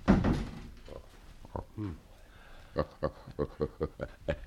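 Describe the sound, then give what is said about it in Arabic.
A door is shut after a voice speaks briefly, followed by a run of evenly spaced, dull knocking thuds. “طب اخرج انت وسيبينا. اقفل الباب علينا.”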